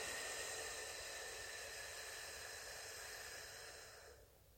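A deep exhale of air blown out slowly, a soft breathy hiss held steadily for about four seconds before tapering off, quiet and alone.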